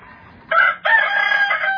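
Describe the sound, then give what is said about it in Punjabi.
A rooster crows once, loud and alone: a short harmonic opening note, a brief break, then a long sustained call that holds steady to the end. “ਆਹ ਜਿਹੜਾ ਹੁਣ ਮੈਂ ਕੁੱਕੜਿਆ ਇਸ ਕਰਕੇ ਰੱਖ ਲਿਆ ਵੀ ਜਿਹੜੇ ਨਹੀਂ ਜਾਗਦੇ ਉਨ੍ਹਾਂ ਨੂੰ ਜਗਾਉਣ ਦੀ ਜ਼ਰੂਰਤ ਆ ਇਹ।”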